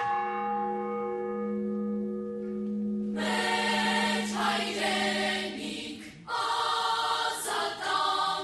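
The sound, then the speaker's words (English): Church bell tolling at the Yerevan Armenian Genocide Memorial Ceremony marking the centenary of the killings. A long, humming tone fades, then several loud clanging peals ring out and overlap. “That's the sound of the Yerevan Genocide Memorial Ceremony in Armenia, commemorating today 100 years since the start of mass killings of Armenians”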